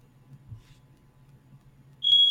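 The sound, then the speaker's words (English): A smoke alarm going off at home gives a single loud, high-pitched beep near the end that holds to the close. A faint low hum comes before it. “my smoke alarm is going off. Oh no, that's not good.”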